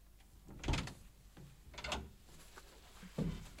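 A door is opened for a police chief inspector in a radio drama: three quiet, muffled wooden clunks and thuds, spaced apart over a low background, with no voices.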